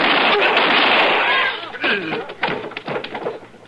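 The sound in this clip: A gunshot in a Western showdown erupts as a loud, harsh blast whose noisy tail lingers for about a second and a half before a man's voice takes over.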